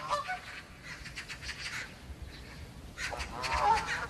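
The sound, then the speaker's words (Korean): Canada geese honk faintly in a quiet outdoor soundscape, calling several times with a stronger cluster of honks toward the end. “아, 캐나다 기러기 소리구나.”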